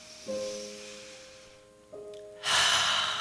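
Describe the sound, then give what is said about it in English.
A deep breath drawn in during guided meditation: a loud, airy inhalation swells near the end, following soft sustained low tones. “Let's just take a deep breath in.”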